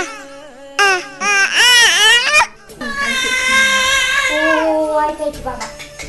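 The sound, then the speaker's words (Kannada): A months-old baby cries in loud, wailing bursts with a strongly wavering pitch. A short gap comes midway, and then a longer, sustained wail follows, with no other voices. “ಆದರೆ ಅಳುವಾಗ ಕಂದನನ್ನ ಸಂತೈಸಲು ಬೇಕು ತಾಯಿ.”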